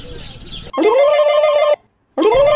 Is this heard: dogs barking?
no